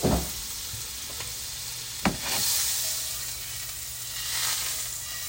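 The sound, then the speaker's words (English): A tablespoon of butter sizzles and melts in a frying pan, a steady broad hiss with two brief knocks and a gentle swell in the sizzle toward the end. “Alright, that butter's gonna melt”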